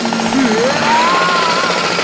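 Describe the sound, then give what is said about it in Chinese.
Neighbours' renovation crew at work before dawn, a loud continuous power-tool drone whose whining tone climbs and then holds steady. “拿到这个劳模奖，我要感谢很多人，特别要感谢我们家隔壁的装修队，因为他们天还没亮就……”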